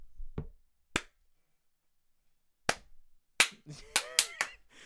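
Sharp hand claps imitate one audience member clapping out of rhythm at a music gig: a few widely spaced, uneven claps, then quicker, irregular ones bunched together near the end.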